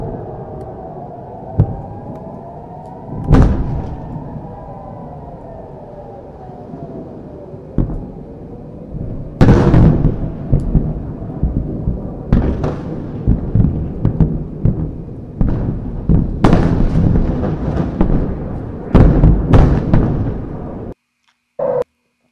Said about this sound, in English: But watch how the Iron Dome system works. It's impressive. Taking out missiles in midair.